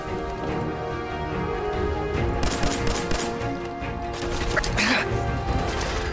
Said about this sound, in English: I threw a grenade.